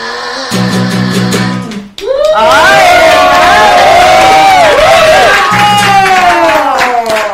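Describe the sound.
Studio audience cheering on a television programme, a loud and sustained roar of many voices with high whoops that bursts in abruptly and stays at full strength.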